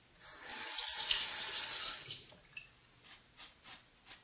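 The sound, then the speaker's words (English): A tap runs water into a sink basin in a steady rushing stream for about two seconds, then stops. A few soft, separate splashes or drips follow. “Wash out the sink basin when you're finished.”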